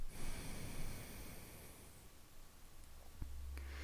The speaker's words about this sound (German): Schließ mit dem Ringfinger das linke Nasenloch und atme rechts aus.